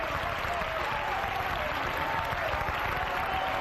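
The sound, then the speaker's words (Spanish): Church audience applauding, a dense, even wash of clapping that holds steady from start to finish. “Aleluya, denle un aplauso al Señor Jesucristo.”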